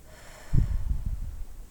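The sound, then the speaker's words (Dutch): A slow exhalation through the mouth during a guided relaxation stretch, a soft, breathy low rush that starts abruptly, holds for about a second and trails off, with no talking. “Adem uit door je mond.”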